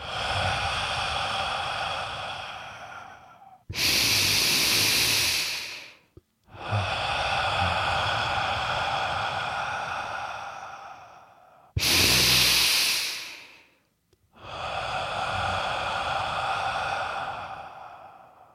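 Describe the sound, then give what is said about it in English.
Slow, deep breathing, in through the nose and out through the mouth, with long drawn-out exhales and shorter, sharper breaths between them. It comes in a slow, even cycle, with no talking. “when you exhale for four seconds through your mouth, pull your belly button to your spine. Inhale for two. Exhale for four.”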